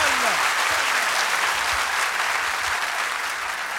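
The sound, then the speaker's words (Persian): A crowd applauding together during a Persian verse recitation, with dense, continuous clapping at a steady, loud level and a faint voice briefly beneath it at the start. “دست بزن، ماشاءالله”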